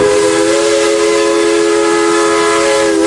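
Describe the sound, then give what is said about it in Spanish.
A locomotive's train horn sounds as one loud, steady, rich-toned blast that holds unbroken for the whole clip. “Y también hay otro video sobre la locomotora.”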